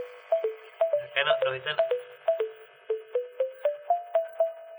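A mobile phone ringtone, a melody of many short, clear electronic beeps stepping up and down in pitch at a steady rhythm, repeating throughout.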